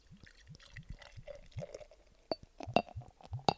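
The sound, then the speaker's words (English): A cocktail being poured into a glass gives a quick run of soft glugging gurgles, joined near the end by a few sharp glassy clinks. It is fairly quiet overall, with no talking. “That's the sound of a cocktail being poured into a glass.”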